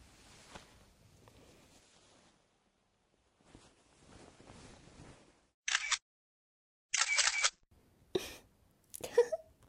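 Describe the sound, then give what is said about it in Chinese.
Camera shutter firing as photos are taken: several loud, sharp bursts of noise in the second half, after quiet stretches of faint, low rustling. “这下变态哥哥变态样子全都被我拍下来了，有了这些照片， 就不怕你以后不听话了。”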